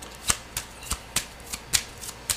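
Tarot cards are shuffled by hand during a reading, making a steady series of sharp, evenly spaced clicks and snaps at a quick, regular pace.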